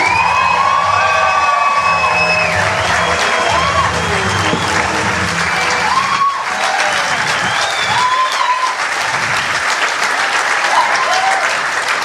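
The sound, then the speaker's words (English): A live comedy audience at the Comics Lounge applauds and cheers to welcome two hosts to the stage, with dense, loud clapping and scattered shouts and whoops sustained throughout. “Now please put your hands together and welcome to the stage, Dave and Gareth.”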